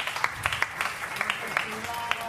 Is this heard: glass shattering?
no

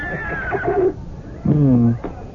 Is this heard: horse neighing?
yes

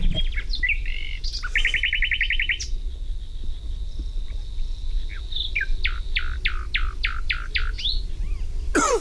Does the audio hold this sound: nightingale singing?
yes

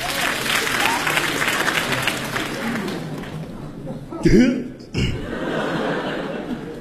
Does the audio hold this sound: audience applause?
yes

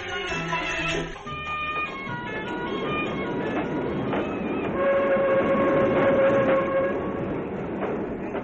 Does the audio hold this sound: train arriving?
yes

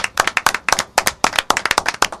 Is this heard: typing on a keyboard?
no

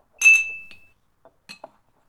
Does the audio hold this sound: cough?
no

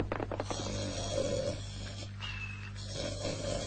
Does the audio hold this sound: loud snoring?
yes

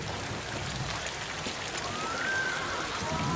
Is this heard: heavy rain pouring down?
yes

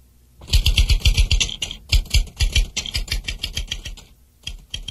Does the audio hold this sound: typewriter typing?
yes

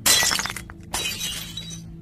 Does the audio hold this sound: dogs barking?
no

